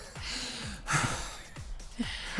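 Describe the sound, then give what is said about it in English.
Heavy, labored breathing from people cycling uphill comes as a run of quick, rough gasps and snorting breaths, some partly voiced. The breaths are uneven in rhythm, fairly quiet and close, and no words are spoken. “Just what every podcast right. needs is a lot of heavy breathing directly into microphones. Yeah, a lot of heavy breathing.”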